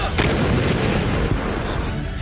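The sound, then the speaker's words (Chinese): Booming fire from several 122 mm truck-mounted howitzers firing shells in turn. A dense, loud, distorted roar fills the whole clip, with a couple of sharper blasts standing out. “122毫米车载榴弹炮率先出击，数门火炮依次开火，一发发炮弹破膛而出，直击目标”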